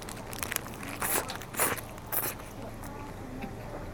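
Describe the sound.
Crunchy bites into a large burger with crispy onions, lettuce, ketchup and miso sauce: three crisp crunching bursts spaced about half a second apart, fairly faint over a low, steady background.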